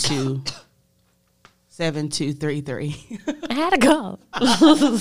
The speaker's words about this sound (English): I had a cough. Sorry. In the mic.